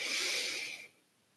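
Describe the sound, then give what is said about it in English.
A long, slow exhale in a breathing exercise: a steady, airy breath of hiss-like noise that holds for nearly a second, then tapers off into near silence. “And release slowly and long. Exhale for eight.”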